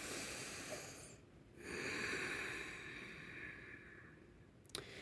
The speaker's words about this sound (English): let's all take a big, deep breath together.